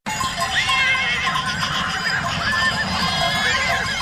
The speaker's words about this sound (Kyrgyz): Испаниянын Амил шаарчасында жапайы жылкыларга арналган жылда кайталануучу кызыктуу көрүнүш башталды. Жергиликтүү тургундар азоо аттарды тоодон айдап түшүп